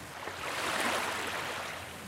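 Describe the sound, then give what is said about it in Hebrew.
Flowing water and sea waves make a soft, continuous wash that swells gently and then settles, faint and even, with no distinct breaks or other sounds. “צלילים של מים, מים נקיים,”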